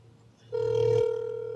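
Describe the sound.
Telephone ringing on a call to a governor's press office, a steady electronic tone that starts abruptly after a faint lead-in and holds to the end.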